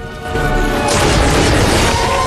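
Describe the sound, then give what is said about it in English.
A stick crashes onto a floor, a loud booming impact that bursts into a broad, rushing crash and stays sustained to the end, rising out of a lower rumble. “Nanny McPhee crashes her stick on the floor.”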